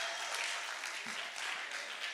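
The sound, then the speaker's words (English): An audience claps in sustained, dense applause. A steady wash of many hands holds an even loudness from start to finish. “And actually, we want to clap for you because you overcame one of Satan's great weapons.”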